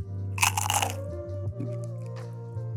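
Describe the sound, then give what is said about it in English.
A potato chip is bitten right in front of the microphone, making a loud, crisp crunch, followed by a few fainter chewing crunches over a steady low hum. “so I'm gonna eat this chip”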